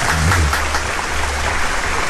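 A brief burst of audience applause, an even, dense hiss of many hands clapping at once that holds steady for about two seconds.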